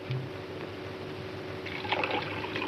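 Water poured in to make a lemon drink, a soft, steady trickle of liquid that continues throughout and grows slightly louder and splashier toward the end.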